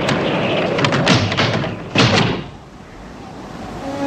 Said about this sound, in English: Another set of doors flap in the wind.